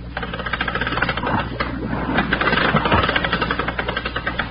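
Air pump feeding air down to a diver, a loud mechanical chugging that repeats in a steady, rapid rhythm throughout.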